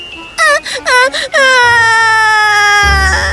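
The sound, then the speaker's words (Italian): A baby girl cries loudly: a few short, high sobbing bursts break into a long, sustained wail that holds a steady, piercing pitch. “Ma quando lo vide andare via, la piccola Lea improvvisamente iniziò a piangere.”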